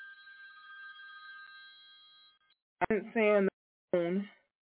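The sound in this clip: A telephone ringing with a steady electronic tone for about two and a half seconds that gradually fades, followed by a few short bursts of talk.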